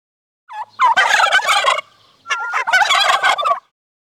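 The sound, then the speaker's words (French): A turkey gobbles in two loud, rapid rattling bursts separated by a short pause, with no other sounds. “I can hear a turkey. J'entends une dinde.”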